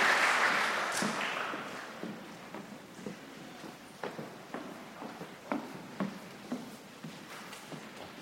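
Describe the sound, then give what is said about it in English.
Audience applause for students, parents, teachers and mentors at a Martin Luther King Day celebration, starting as dense clapping that quickly thins and fades into scattered, faint individual claps. “Let's have one more round of applause for all of our students, their parents, teachers, and mentors.”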